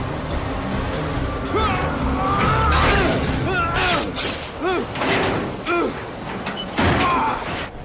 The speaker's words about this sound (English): he leaps up and grabs the end of the train with his meat hook, swinging round and crashing into the door.